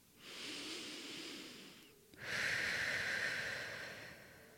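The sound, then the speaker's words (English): One slow, deep breath, a soft airy inhale followed by a fuller, slightly louder exhale that gradually trails off, heard alone and quietly. “I'd like to invite you to take a deep breath with me.”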